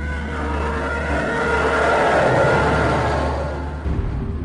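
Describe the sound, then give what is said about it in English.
A twin ion engine spacecraft flying, a continuous roaring engine drone that swells in loudness through the middle and eases slightly toward the end. “sound of the Sinar Fleet System's twin ion engine spacecraft. This is the sound of superiority.”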